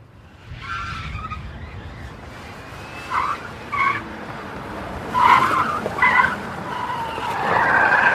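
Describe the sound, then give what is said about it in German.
Car tires squeal in several sharp, high-pitched bursts over a continuous rumble of engine and road noise. “Das Quietschen von Reifen. Quietschen von Reifen spielen.”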